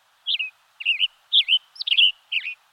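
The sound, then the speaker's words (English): A western tanager sings five short, burry whistled phrases in a steady, robin-like series, clear and high with brief pauses between them, heard alone. “The tanager's tune is as sharp as his brightly colored red head. With a yellow body jacketed in black, the western tanager is a flash of bright color in the coniferous forests of the west.”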